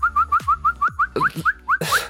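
People whistling to imitate a bird call: a long, even series of short, high, rising whistle notes repeated at a steady pace, with a few breathy noise bursts between the later notes.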